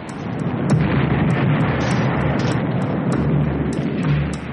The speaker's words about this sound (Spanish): A las 4:45 horas, el barco alemán Schleswig-Holstein abrió fuego contra las posiciones polacas.